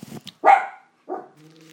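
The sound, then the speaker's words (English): A dog barks at a window in a few short, sharp bursts with gaps between them, the loudest bark near the middle. “my dog's looking out the window barking. I don't know what he can see.”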